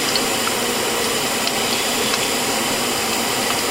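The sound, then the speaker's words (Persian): Potatoes frying give a loud, steady sizzling hiss that carries on without a break, a dense watery crackle like steam. “سیب زمینی من این بار داره سرخ میشه، هیچ کاری باش ندارم.”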